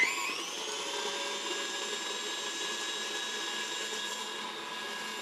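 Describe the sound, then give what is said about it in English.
An electric mixer whips peanut butter, sugar and whipped topping in a bowl until fluffy. It makes a steady, even motor whine at a constant pitch that holds unchanged for several seconds, with no talk over it. “Now I'll just mix this till it's really fluffy.”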